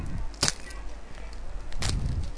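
Two sharp clicks as the two snap clasps on a BrailleSense Plus carrying case are undone, one on the right and one on the left, separated by a quiet pause of over a second.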